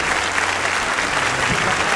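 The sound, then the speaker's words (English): Loud audience applause at the end of a live show, continuous dense clapping with a faint murmur of crowd noise throughout. “Ladies and gentlemen, give the round of applause to the amazing Richard Osman!”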